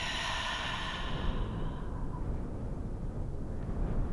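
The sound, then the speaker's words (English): A deep breath released as a long, breathy exhale during a guided meditation, a soft rushing sigh that fades away over about two seconds into quiet low noise. “Together, we'll take a nice deep breath in through the nose and exhale, let go of a sigh.”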